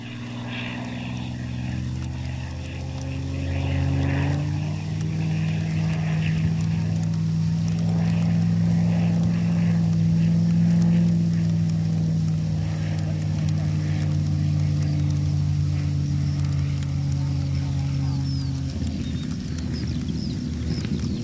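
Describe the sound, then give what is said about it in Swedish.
A Spitfire Mark 9 propeller fighter aircraft comes in to land with a loud, steady droning engine. The engine note shifts partway through and changes again near the end. “Så kommer Spitfire Mark 9 in för landning.”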